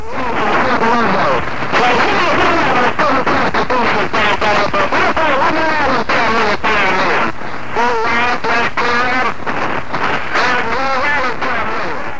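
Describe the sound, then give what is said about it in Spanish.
Shortwave radio splatter interference caused by sideband overmodulation: a loud, continuous, distorted stream of garbled, voice-like warbling tones with choppy breaks, bleeding across the band. “existe otro tipo de interferencia conocida en inglés como splatter, y que no es más que la sobremodulación producida en la banda lateral interfiriendo las frecuencias vecinas. Escuchemos.”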